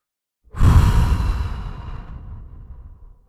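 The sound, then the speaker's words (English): A single deep, audible breath taken during a relaxation exercise: a soft, airy rush that swells quickly, then fades slowly over about three seconds, heard alone with no talk. “Take a deep breath and even make it audible.”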